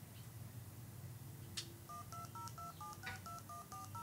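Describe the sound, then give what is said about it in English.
A quick, evenly spaced run of telephone keypad tones dials a number during a live demonstration. The beeps are faint and short, two-tone and at varying pitches, over a low steady hiss. “so that's the number being dialed”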